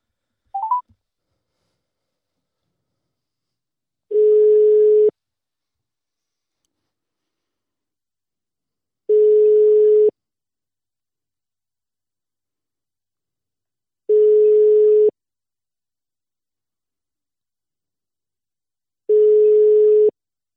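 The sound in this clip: Outgoing telephone call ringing: four ringback tones at one steady pitch, each about a second long and evenly spaced with long silent gaps, after a brief blip at the start. No voices.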